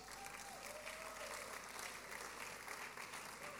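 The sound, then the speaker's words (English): A church audience applauds to welcome first-time visitors, with steady, dense clapping that holds at an even level from start to end. “put your hands together for them, church?”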